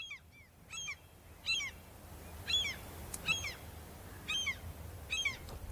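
Gulls calling in a repeated series of short, harsh, high squawks that come in bursts every second or so, fairly clear above a low, steady rumbling background.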